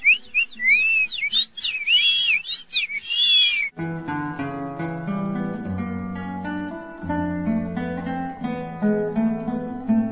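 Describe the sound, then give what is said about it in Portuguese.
Whistled imitation of songbirds: quick, high, sliding chirps that rise and fall repeatedly, clear and fairly loud, then music takes over abruptly. “Imitava o som dos passarinhos, assim.”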